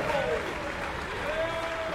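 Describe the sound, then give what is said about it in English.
An orchestra concert audience claps for the low brass players after they stand and raise their horns. The applause is a steady, even wash of clapping that lasts throughout, with faint sustained tones mixed in. “They get a big applause here.”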